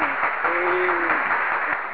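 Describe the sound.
An audience claps at a spoken poetry performance with steady, dense applause of moderate loudness. A voice briefly sounds over the clapping near the start.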